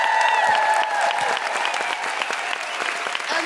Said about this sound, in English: General, fabulous, guilty feminist woohooing noises for the wonderful Kemah Bob!